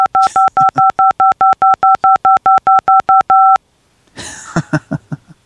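Telephone keypad dialing tones beep in a rapid, evenly spaced run of many loud dual-pitched pulses, which stop abruptly before a short burst of other sound.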